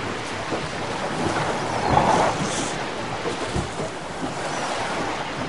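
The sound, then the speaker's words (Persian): Rolling sea and wind as a ship sinks at sea, a broad, steady wash of waves with a slight swell near the middle. “وای کشتی داره غرق میشه.”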